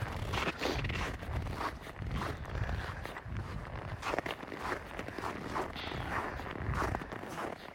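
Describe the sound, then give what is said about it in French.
Footsteps walk outdoors over icy ground near snow-flecked mountains by a quiet village. A long, even series of fairly soft crunching steps keeps up a steady rhythm, with no voices. “J'arrête de marcher pour que tu comprennes peut-être un peu.”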